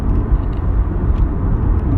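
A car engine rumbles low and steady while being driven fast, a dense continuous drone that stays loud and even throughout with no talk.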